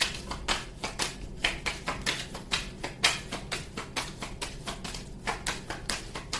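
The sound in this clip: Oracle cards being shuffled and drawn, heard as many quick, crisp papery taps and flicks in an uneven rhythm, fairly quiet and with no voices.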